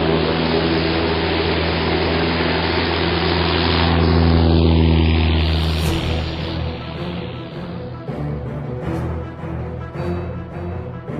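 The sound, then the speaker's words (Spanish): A propeller aeroplane engine, at the start of a takeoff, drones loudly and steadily with a deep, rich hum. It swells briefly midway, then thins and grows rougher toward the end. “puso en marcha el motor sin dificultad. Despegamos suavemente y volamos por encima de aquella ciudad maldita.”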